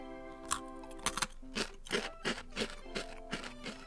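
Crunchy potato stick snacks in charcoal-grilled chicken salt flavour are bitten and chewed, giving many sharp, crisp crunches in an uneven rhythm against a faint steady hum.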